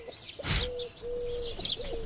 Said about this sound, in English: listen to the birds chirp